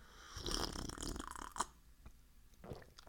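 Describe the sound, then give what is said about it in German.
Quiet sipping of coffee: a soft slurp followed by a few faint mouth and swallowing noises, low in level with no talk. “Äh, aber nicht in meinem Kaffee, den ich gerade neben mir stehen habe und von dem ich kurz einen Schluck trinken werde.”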